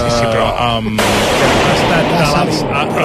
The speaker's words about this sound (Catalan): I avui s'ha produït una deflagració.